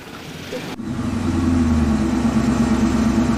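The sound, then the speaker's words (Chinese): A vehicle drives over a bumpy, potholed washboard dirt road with its engine rumbling. The noise jumps abruptly just after the start, then settles into a loud, continuous drone. “那站在你看我前面， 就感觉像船一样 啊，非常颠簸啊。这就是有名的搓衣板路啊， 搓衣板路 啊，坑坑洼洼的啊。”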